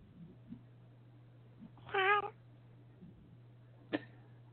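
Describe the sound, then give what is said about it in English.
A single cat meow, a short wavering cry of about a third of a second, rises over a steady low hum and faint background noise; a brief sharp click follows a couple of seconds later. “Who's meowing?”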